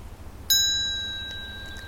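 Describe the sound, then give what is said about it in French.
A small hand bell is struck once to close a meditation, giving a bright, clear ring that lingers and slowly fades in the quiet. “Lorsque tu entendras le son de ma petite clochette, ce sera la fin de ce moment toutes les deux, et tu pourras ouvrir les yeux.”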